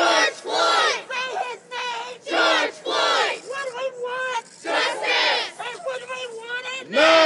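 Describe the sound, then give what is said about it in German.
Protest crowd chanting outside a court trial in Minneapolis: loud, rhythmic shouted chant phrases repeat one after another, separated by brief pauses. “Es gab und es gibt Proteste rund um den Prozess und so verliefen diese Proteste bislang.”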